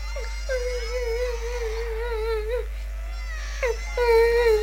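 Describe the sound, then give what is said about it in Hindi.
Someone cries in a high, wavering whimper, a sustained sobbing wail that breaks off partway through and then resumes with a few sharp catches. “अरे ये तो किसी के रोने की आवाज है।”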